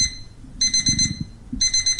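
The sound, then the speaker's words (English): An old-style mechanical alarm clock rings with a shrill, high metallic bell clatter in two rapid bursts, loud and alone, with a soft low rattle beneath. “An old school alarm clock.”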